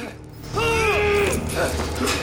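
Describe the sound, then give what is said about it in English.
A metal chain creaks and strains with squealing, wavering metallic tones and rattling as two men struggle against it, the strain swelling to a loud peak and then staying rough and noisy. “They struggle against the chain that binds them together.”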